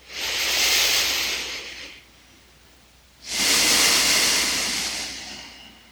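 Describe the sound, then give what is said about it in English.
Slow breathing during a guided breathwork practice: one long, hissing breath in through the nose, a short pause, then a drawn-out, breathy exhale through the mouth that slowly fades. “And when you're ready, begin inhaling in your nose and out your mouth.”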